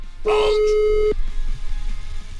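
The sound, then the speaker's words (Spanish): An electronic alarm clock tone sounds while an alarm is being set: one loud, steady beep with a buzzy edge that lasts about a second, then low background rumble. “Ok, marcamos entonces ahora. Despertador.”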